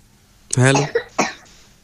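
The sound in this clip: A man coughs: a rough voiced rasp followed by a few short, harsh bursts, fairly loud, then quiet.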